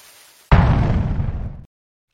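A single booming explosion sound effect, the 'Bundy bomb', bursts in suddenly and loud, roars on for just over a second with a slowly fading rumble, then cuts off sharply into silence.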